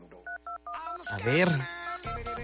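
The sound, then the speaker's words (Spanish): A telephone number is dialed in a quick series of short touch-tone beeps, followed by a voice and further phone sounds. “A ver quién nos contesta. Venga, marcando ahora.”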